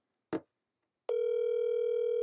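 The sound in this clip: A ringback tone plays on an outgoing phone call. A single short tap comes first, then after a pause a steady electronic tone starts and holds unbroken at an even level to the end.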